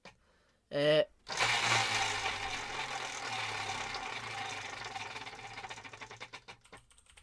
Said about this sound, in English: would you like to spin the wheel to decide what we're doing next week? I do. I will.